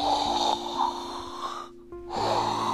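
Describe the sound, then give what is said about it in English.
A voice imitates a dragon breathing out fire, making a long, loud, breathy rushing exhale, a short near-silent gap, then another forceful hissing breath. “he went and took a deep breath and was going to breathe out fire. You could just tell. He went,”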